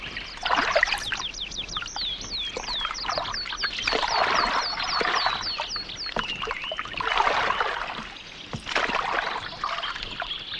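Splashing water from a boat being rowed and pushed off with a pole: several rhythmic swells of water noise, with birds chirping clearly and rapidly above them.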